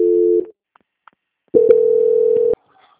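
Telephone tones mark a call being transferred. A short, steady mid-pitched tone is followed by a couple of faint clicks, then a second steady tone of about one second that cuts off sharply. No one speaks.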